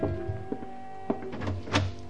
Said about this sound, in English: I was just leaving my hotel room when there was a knock at the door.